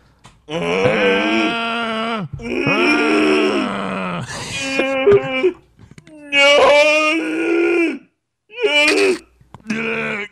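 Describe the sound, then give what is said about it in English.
A voice imitates a zombie groaning with several loud, drawn-out guttural moans and strained wails, separated by brief pauses. “Zombie Scalia, groan once for yes and twice for no”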